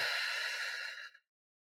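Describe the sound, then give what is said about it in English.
One slow, deep breath, a soft airy hiss that holds steady for about a second and then fades quickly into silence. It is faint and alone. “So we're going to breathe in and out.”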